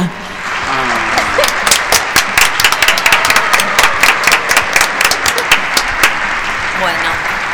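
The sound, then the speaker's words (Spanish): Applause from a crowd greeting a newly announced community library project: dense, many-handed clapping holds as a loud, steady patter for several seconds, with voices mixed in. “Aplausos para este proyecto.”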